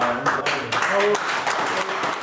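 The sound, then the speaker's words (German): Applause from the audience at a public debate on hunting in Schiers, Switzerland. A crowd of hands claps steadily, with voices mixed into the clapping. “Ein Applaus gegen die Sonderjagdinitiative und für das traditionelle Bündner Jagdsystem.”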